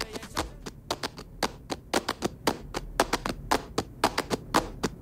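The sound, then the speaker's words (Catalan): Hand claps recorded at home in a dining room at three or four in the morning: many crisp, fairly quiet claps sound alone in a quick, slightly uneven rhythm. “jo al menjador de casa a les 3 o les 4 de la matinada fent 1, 2, 3, 4, 5, 6, 7, 8, 9, 10, 11, 12 preses de palmes”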